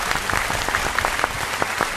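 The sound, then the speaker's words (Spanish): Applause for a restaurant in Málaga: loud, dense clapping that holds steady throughout, heard alone without talk. “pues un aplauso, venga.”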